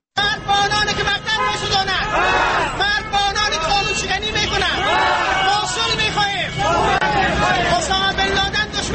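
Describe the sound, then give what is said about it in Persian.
Continuous loud babble of a crowd at a protest by more than 100 disabled people in Balkh, Afghanistan, rallying in support of the national army, with many voices overlapping steadily throughout. “این صدای بیش از 100 تن معلولین در بلخ است که به منظور حمایت از اردوی ملی کشور دست به مظاهره زدند.”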